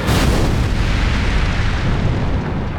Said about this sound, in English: A fireball shot down from the heavens, a blaze of white-hot flame that Lilith